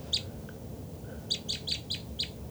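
Short, sharp, high bird chirps: one near the start, then five in a quick, even series, clear and moderately loud over a low, steady background rumble.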